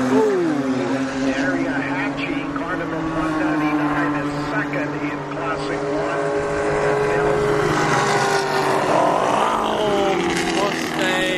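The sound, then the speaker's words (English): Engine roar of a classic Corvette race car driving past during a weekend race meeting at a race track. A loud, sustained drone with strong harmonic tones shifts in pitch throughout, with sweeping changes near the start and again near the end. “That's a Corvette. Another Mustang. These are classic. These are the big boys.”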